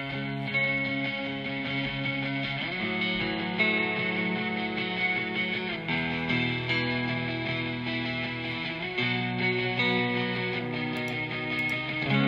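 Two electric guitars play the chords of a song through effects, with distortion and a doubled, chorus-like shimmer. The sustained chords ring steadily and fairly loudly, shifting to new chords every few seconds, with no voices.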